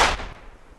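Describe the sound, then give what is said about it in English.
A single explosive blast set off by ski patrollers for avalanche control on steep snowy terrain: a sharp, loud boom that hits at once and then fades in a rumbling decay over under a second. “Today, ski patrollers responsible for the area's snow safety are setting off explosives. Clear the area! Blasting! Clear the area!”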